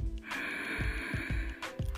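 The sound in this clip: A deep inhale through the nose, taken as part of a guided breathing exercise. One long, steady, airy breath lasts over a second and is clearly audible, with no talk over it.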